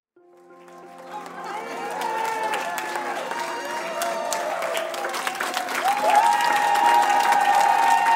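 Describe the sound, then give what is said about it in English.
Applause and cheering in a hospital celebrate a recovered COVID-19 patient going home. Clapping builds from a quiet start into steady crowd noise with raised voices, then swells louder near the end. “That's the sound of celebration. As another recovered COVID-19 patient is healthy enough to go home from the hospital.”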